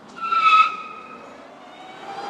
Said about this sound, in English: That's the sound of a prototype all-electric car I drove recently at Better Place's headquarters in Palo Alto, California.